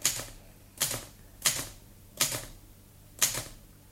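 A typewriter is typed on slowly. Five separate, loud keystrokes come at uneven gaps, each a bright, sharp clack with a brief ringing tail, and no talk.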